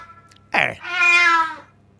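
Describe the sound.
A cat gives a short sound followed by a single loud, drawn-out meow of about a second, heard alone.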